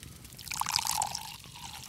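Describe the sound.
Wine being poured in a castle makes a soft trickling splash that swells and then fades within about two seconds.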